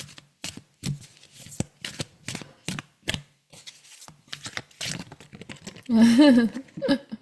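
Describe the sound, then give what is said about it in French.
Oracle cards being shuffled and drawn: a long run of many crisp, papery riffles and taps, with a denser, louder burst of card handling near the end. “Mais je vais tirer une carte pour le groupe, en tout cas le prochain niveau.”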